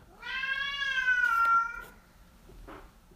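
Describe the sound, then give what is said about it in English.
A cat meowing: one long, drawn-out meow with clear harmonics, followed after a pause by a brief, softer sound from the cat. “That was my cat.”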